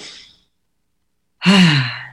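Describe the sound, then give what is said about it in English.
A deep breath is taken in and let out. A faint airy breath fades away at the start, and after a silence comes a loud, throaty sigh-like exhale that tapers off slowly. “just if you take a deep breath in and just realize,”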